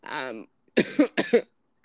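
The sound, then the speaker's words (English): A person coughs a few times in two short, sharp bursts, each with a double hack, after a brief rough vocal sound. The coughing is loud and close, with silence between the bursts. “I hope that there wasn't too much coughing”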